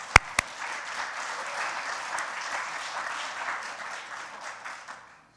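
A church audience applauding to welcome a pastor and his wife. Two sharp knocks come first, then sustained, dense clapping that swells a little and fades out at the end.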